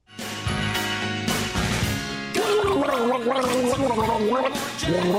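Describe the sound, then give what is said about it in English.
A person gargles steadily for several seconds, the bubbling liquid carrying a voiced, shifting pitch that follows a tune at a fast tempo. “Well, yeah, because I was also running out of air. It's kind of hard to breathe when you're gargling.”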